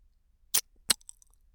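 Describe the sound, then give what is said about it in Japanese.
Someone bites an earlobe, heard as two short, crisp mouth bursts close together, then a few tiny wet clicks that trail off against near silence. “耳たぶん、噛んでみてもいいかな。”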